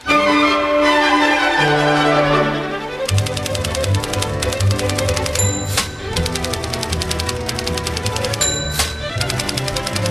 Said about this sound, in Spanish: Fíjate que las niñas están aquí escribiendo a máquina, ¿eh? estamos, los tres escribiendo a máquina